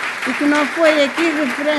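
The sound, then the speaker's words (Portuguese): Applause from an audience honouring community theatre, a dense steady patter with raised voices calling out over it throughout. “Uma grande salva de palmas ao teatro que se faz nas coletividades.”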